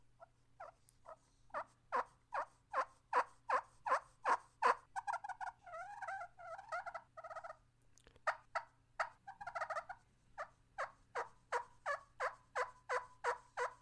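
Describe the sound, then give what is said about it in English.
A wild turkey hen calls in a long run of many evenly spaced yelps, with brief rustling bursts from her scratching in Alabama pine straw in the middle of the series. “It's a dang hen. It's a hen. There's no doubt. She's scratching around in some Alabama pine straw right now.”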